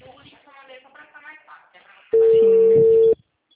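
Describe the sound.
A telephone busy signal on a call that will not go through while SIM chips are being tried: people talk, then one loud, steady tone of about a second sounds, then silence.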